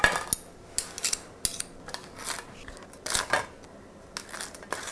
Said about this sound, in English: Get out some plates. All right, like I said, butter the bread.